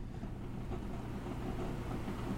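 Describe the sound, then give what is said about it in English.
An electric fan runs at a steady, even whir with a low rumble underneath. The level stays constant throughout and no one speaks. “That fan is cranking away, isn't it? Yeah, it's blowing your luscious locks in the wind.”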